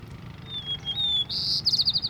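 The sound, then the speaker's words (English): White-crowned sparrow singing: thin, clear whistled notes, then a higher held note, ending in a quick series of short buzzy notes, loud and alone over faint background noise. “white-crowned sparrow”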